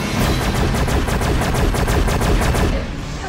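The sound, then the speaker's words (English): Rapid weapons fire from Earth starships opening fire in a space battle, a loud, dense stream of sharp repeated bursts with a hard, crackling edge, pounding steadily before thinning out at the very end. “Hall starts the attack. Engage any hostile target. Fire at will. I repeat, fire at will.”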